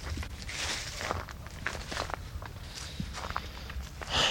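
Footsteps of someone walking outdoors on a small-town street: a run of many soft, even steps keeps a steady walking rhythm, with a slightly louder scuff near the end.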